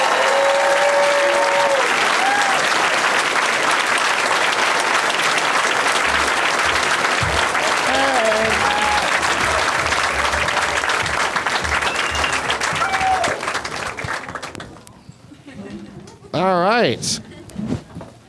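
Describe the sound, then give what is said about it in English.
Audience applause welcoming guests onto a show, loud sustained clapping with a few scattered cheers that holds for about fourteen seconds, then dies down as voices begin talking. “Let's hear it for them.”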